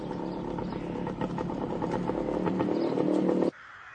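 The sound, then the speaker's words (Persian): A motorcycle rides along a dirt road lined with tall trees. Its engine gives a steady, loud drone with rattling clatter, then cuts off abruptly near the end. “قاسم با موتورش از جاده خاکی که دو طرفش درختای بلندی داره میگذره”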